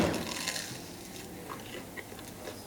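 Someone chews fresh bread, torn by hand and dipped in oil, with quiet moist chewing and a few faint, soft crunches.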